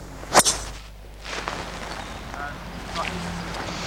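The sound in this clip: A golf driver with a taller, shorter head strikes the ball with a sharp, bright crack and a quick second burst, followed by quieter airy background noise.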